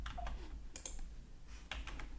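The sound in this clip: Faint clicking taps of keys pressed on a calculator keypad while dividing a payment, a few quick presses in short irregular bursts with no voices.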